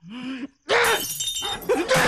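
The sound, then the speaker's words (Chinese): Household objects being smashed in a home: a short sound first, then after a brief silence a long stretch of loud, harsh crashing and shattering with a few sharper peaks near the end. “爸，爸，别砸了，家里快砸光了！”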